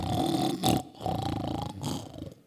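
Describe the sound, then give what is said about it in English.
A person imitates snoring with the voice: two long, deep, rattling snores in a row, the first briefly louder, then a drawn-out second that fades, growling and loud throughout. “I sometimes snore both ways, and you got to be gifted to snore both ways”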